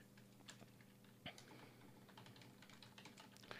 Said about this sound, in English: So let me type that up real quick since I'm here without Charles to fill in the awkward silence.